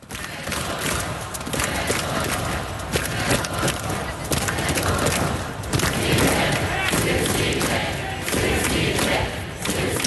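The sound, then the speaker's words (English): A protest crowd in Ukraine makes a dense, loud, continuous roar of many voices that stays steady throughout. “During the latest demonstrations on Saturday, chants of Syrsky out and Fedorov in his support could be heard.”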